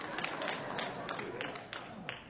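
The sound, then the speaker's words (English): Church singers clap in a steady, rhythmic beat of sharp, fairly even hand claps over a dense, sustained background. “All the singers are clapping right now.”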